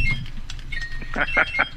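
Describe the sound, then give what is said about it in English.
A quiz game buzzer sounds as a few quick, repeated high electronic beeps near the end, over a noisy background with a low rumble. “I hit the buzzer after you buzzed in.”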